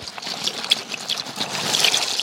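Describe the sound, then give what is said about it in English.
Dry pasta poured from a box into a pot of water on the stove: a continuous rustling, pattering pour that swells slightly louder toward the end, with no talking. “I'm just going to open the box and put it in the pot of water that I have on the stove.”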